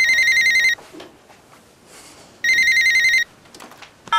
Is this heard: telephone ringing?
yes

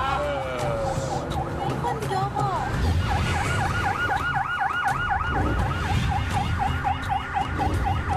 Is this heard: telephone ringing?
no

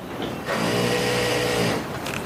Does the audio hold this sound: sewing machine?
yes

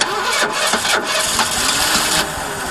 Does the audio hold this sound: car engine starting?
yes

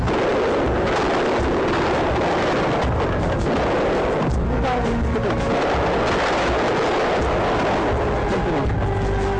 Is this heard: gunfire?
yes

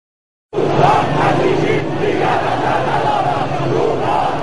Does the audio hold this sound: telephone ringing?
no

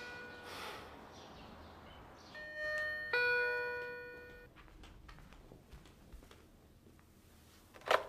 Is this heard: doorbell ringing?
yes

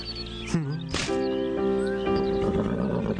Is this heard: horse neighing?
yes

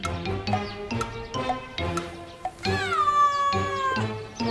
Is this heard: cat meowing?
yes

